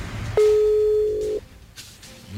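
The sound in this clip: A single ringback tone from an outgoing phone call: one steady, low electronic tone held for about a second, then it stops and only faint background noise remains.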